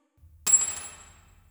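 A key drops onto the floor with a single bright metallic clink that rings briefly and then fades away.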